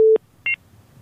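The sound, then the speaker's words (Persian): Dropped-call tone on a radio call-in phone line: a short steady low beep, then a brief higher two-tone beep, followed by near silence. “صدا شما قطع شد. متاسفانه آقای عین‌الدین که تماس شما را از دست دادیم”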